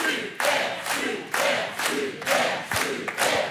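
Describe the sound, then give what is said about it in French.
Game show audience chanting in unison and cheering to urge contestants toward the 1000-euro question. Loud rhythmic bursts of shouting come one after another without a break. “Le public vous encourage à tenter la question à 1000 euros, mais c'est vous qui choisissez, évidemment.”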